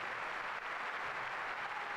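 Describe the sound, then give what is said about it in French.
An assembly applauds and acclaims the pope as he leaves the hall after a Swiss Guard recruits' swearing-in ceremony, producing a steady, fairly quiet wash of dense clapping with no distinct individual claps standing out. “Et voilà le pape acclamé par l'assemblée tandis que il quitte”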